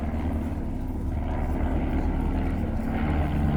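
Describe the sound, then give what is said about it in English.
A Stampe SV4C biplane trainer with a 130-horsepower Gipsy Major engine flies past, its propeller engine giving a steady, loud, rough drone that holds nearly constant throughout, with no voices. “Flying this afternoon in the Stomp SV4C aircraft type, The S-24 was designed as a biplane training aircraft in the 1930s.”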